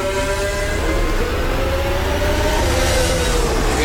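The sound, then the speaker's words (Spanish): Lando Norris's McLaren Formula 1 car runs a warm-up lap during a 2026 session, its engine a loud, continuous, high droning whine with strong harmonic tones that hold steady throughout, with no voices over it. “Y con menos tráfico en la pista, todavía pueden marcar mejores tiempos. Y la vuelta de calentamiento de Lando Norris.”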